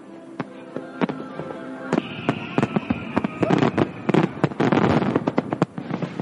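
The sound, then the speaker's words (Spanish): Fireworks explode in rapid succession during a fireworks show set off from barges on the river between Manhattan and Queens, with many sharp, loud booms and crackling bursts that grow denser toward the end. “Los fuegos artificiales sacan a flote el niño que hay en nosotros. Incluso para el veterano equipo de Sousa es un momento muy emocionante. Estos fuegos son los mejores.”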